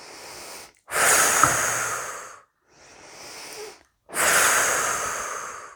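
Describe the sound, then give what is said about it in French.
Slow, deep breathing during a relaxation exercise: two long, loud, airy exhalations with softer breaths before and between them, each breath drawn out and gently fading. “Et à chaque expiration, libération des tensions.”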